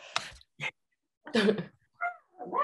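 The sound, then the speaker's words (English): A dog giving a few short, rough vocal bursts, barks or huffs, the later ones with a whiny tonal edge, separated by brief silences. “Oh, sorry, that's my dog. That's my dog.”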